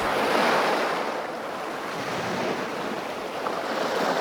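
Waves wash against the seashore at Boryeong in a continuous rushing roar mixed with wind, swelling and easing slightly with no voices.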